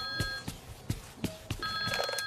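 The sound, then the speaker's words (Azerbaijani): A telephone rings in shrill electric bursts at the start and again near the end, with a few dull thumps in between. “Telefon səsi deyir.”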